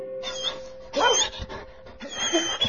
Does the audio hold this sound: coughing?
no